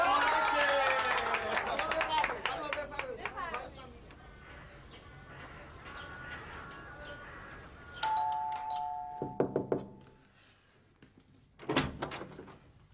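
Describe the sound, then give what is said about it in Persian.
A house doorbell rings with a bright two-tone chime whose ringing tones hold for about two seconds. People talk before it, and a few other sharp knocks and clatters follow. “برم زنگ بزنم یا نه؟ بزن زنگو.”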